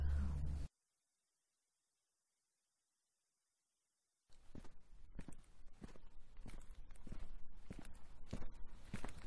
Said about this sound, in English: Come on, keep on walking down the hill